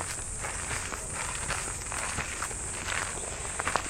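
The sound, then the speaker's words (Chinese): Soft footsteps walking along a forest path thickly covered in pine needles, a faint, steady run of muffled crunching steps with no voices. “这边松树多一点，就会有好多这个松针的地面了，走起来的感觉和声音就会不太一样。”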